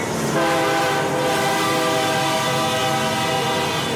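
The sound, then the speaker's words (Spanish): Train passing on railway tracks with a loud, continuous rumbling roar and a sustained, steady horn tone sounding over it for the whole stretch. “Me acerqué un poco más a las vías, muy lentamente, y por fin logré mirar el tren.”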